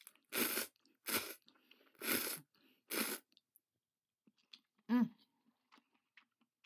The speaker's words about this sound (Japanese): 今日のはイオンで買ったイオンのオリジナルブランドの袋麺の味噌味です。じゃあちょっといただきます。